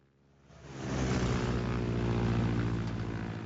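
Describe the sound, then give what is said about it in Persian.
A Stearman biplane's engine and propeller drone, swelling over the first second from a faint hum into a loud, steady, harmonic roar that holds unbroken to the end. “یکی از هواپیماهای دلخواهم هواپیمای افسانه‌ای و دوباله استیرمنه.”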